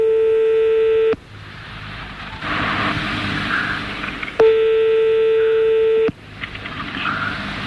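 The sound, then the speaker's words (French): Telephone line tones as a call is placed to directory enquiries on a radio call-in show: two long, steady buzzing tones, each over a second long, separated by a stretch of hissing line noise. “On y va, on appelle le 12.”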